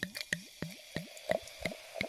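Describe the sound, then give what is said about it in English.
Liquid pours from a bottle in a run of seven soft, evenly spaced glugs, each a quick wet gulp that is fairly faint. “I did it! Here's some ASMR of me pouring it.”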